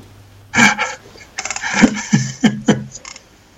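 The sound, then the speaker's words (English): Heavy panting from a man who is out of breath: a series of short, rhythmic, voiced gasps and huffs in quick succession, moderately loud, with no clear talking. “He can't catch his breath.”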